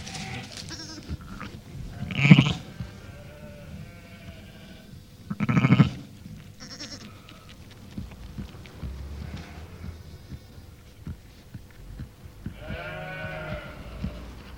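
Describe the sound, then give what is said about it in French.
An Île-de-France ewe bleating beside her newborn lamb: two loud, clear bleats early on, then softer, shorter calls later, with quiet stretches between them. “stimulation tactile de grattage que l'on voit ici chez une brebis de race Île-de-France.”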